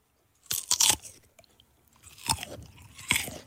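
Eating a pear for ASMR, with loud crisp crunches as it is bitten and wet smacking chews. A quick burst of crunches comes first, then a few more spaced bites, all heard alone without talk.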